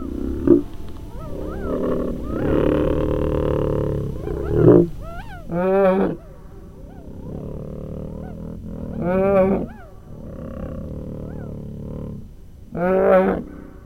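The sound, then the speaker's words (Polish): Simulated roars and growls of Mesozoic-era animals rise in several loud, throaty bursts over a continuous low rumbling bed, with quieter growls between them and no talk. “Posłuchaj symulacji odgłosów ery mezozoicznej.”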